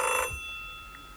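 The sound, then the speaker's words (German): A telephone rings: one short, bright burst of bell-like ringing that cuts off abruptly, leaving a faint steady tone that lingers and slowly decays, with no voices. “Telefon. Ja, ich gehe nicht ran.”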